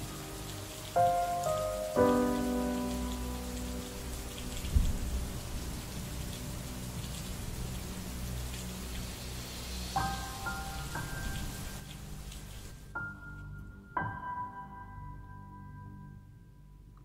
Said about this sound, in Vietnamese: Ngoài trời vẫn cứ mưa.